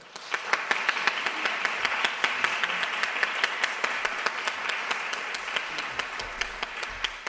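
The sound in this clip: An audience at an evening talk at the LSE applauds the speakers, a continuous patter of many hands clapping with a few louder individual claps standing out, fairly soft and steady throughout.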